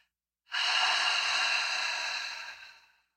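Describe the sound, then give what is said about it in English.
A single long, slow exhaled breath, a soft airy hiss that starts abruptly, holds steady for about two seconds, then tapers off gradually into silence. “try and exhale for 5.”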